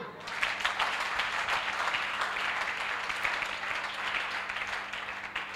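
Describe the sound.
An audience applauds to acclaim God during a church service, with dense, steady clapping that holds at an even level without a break.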